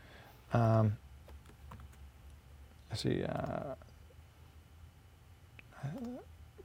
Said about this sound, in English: If you just type a couple of letters